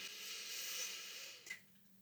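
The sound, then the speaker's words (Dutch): A slow, soft breath, a long faint airy hiss that eases off and ends with a brief puff. “Ten eerste door in te ademen op het moment dat je iets ontvangt. Dus echt de inademing.”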